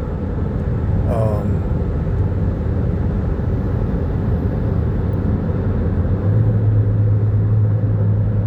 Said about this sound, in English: I'm driving down the highway, so I'm doing two things at once.